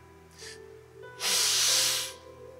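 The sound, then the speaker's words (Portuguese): A deep breath drawn in by a person during a sermon: a brief, faint airy sniff, then one long, loud, hissing inhalation lasting about a second. “Inspirei, coloquei ar para dentro.”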